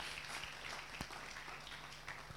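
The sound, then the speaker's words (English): A church audience clapping their hands during a sermon, a soft, dense patter of many claps with a few sharper single strikes standing out. “Clap your hands.”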